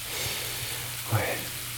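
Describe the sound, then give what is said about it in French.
Bacon sizzling in a frying pan makes a dense, steady crackling hiss with fine popping throughout, with a faint low hum beneath and one slightly louder burst partway through. “j'aime ça le bruit, le grésillement du bacon sur la poêle”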